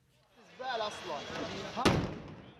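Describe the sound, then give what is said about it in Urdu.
A single sharp blast, the warning explosion in Gaza before an Israeli airstrike on a Hamas TV station, cracks out after a stretch of agitated voices, and the voices carry on behind it. “Gaza میں ہونے والا پہلا دھماکہ جو خبردار کرنے کے لیے تھا، پھر حماس کے ٹی وی اسٹیشن کو اسرائیلی طیاروں نے نشانہ بنایا۔”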